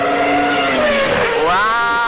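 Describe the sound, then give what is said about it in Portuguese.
A race car speeding along a curvy track, its engine a bright harmonic whine that dips in pitch midway and then climbs sharply again, loud and continuous throughout. “Agora você está dentro de um carro de corrida, voando baixo numa pista cheia de curvas.”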